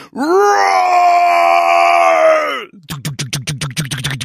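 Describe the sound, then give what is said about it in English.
A voice imitates screaming death thrash metal from a band rehearsing in a basement below a bar: a long, loud, sustained growling scream, then a rapid series of short, rhythmic, chugging vocal bursts. “coming from the basement right below the bar. And like, it's like thrash metal. Screaming death thrash.”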